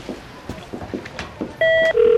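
A telephone call being placed: a few soft, irregular button taps, then two sustained electronic phone tones at slightly different pitches sound one after the other.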